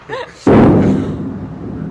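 A single cannon shot of artillery fire on a town: a sudden loud boom followed by a long, rumbling decay. A short vocal sound comes just before it.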